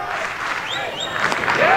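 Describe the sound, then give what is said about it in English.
Baseball crowd voicing displeasure after an outside-corner pitch goes uncalled as a strike, a roar of mixed shouts and jeers that grows louder toward the end. “Outside corner, and that one is not called a strike. Crowd expressing their displeasure, as is head coach Link Jarrett.”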